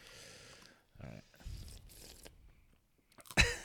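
Someone bites into a crunchy, dipped, chocolate-tasting snack, producing a few soft, crackling crunches and chewing noises, then one sharp, much louder crunch near the end.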